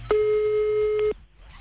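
A single steady telephone ringing tone sounds as a call is placed, one sustained mid-pitched beep lasting about a second, then only faint low background noise.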